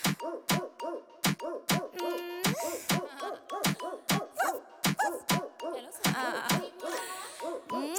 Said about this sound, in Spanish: ¡Ay, qué perrita!